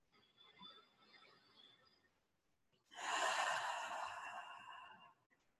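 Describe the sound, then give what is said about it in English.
Someone takes a deep breath during a guided grounding exercise: a quiet inhalation through the nose, a brief pause, then a louder, airy exhale out of the mouth lasting about two seconds. “take three nice deep breaths in the nose and out the mouth.”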